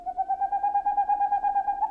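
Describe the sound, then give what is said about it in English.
Boreal owl song on a moonless spring night: a rapid, even trill of low hoots held at one steady pitch through the whole clip, with no other sound. “On a moonless spring night, the songs of boreal owls echo across Alaska and Canada, and from Scandinavia to Siberia.”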